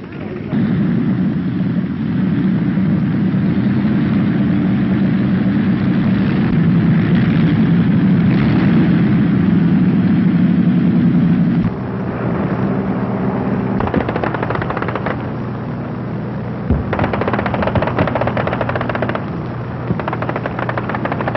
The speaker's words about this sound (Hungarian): Német nehéz bombázók éjszakai támadása az angol főváros ellen.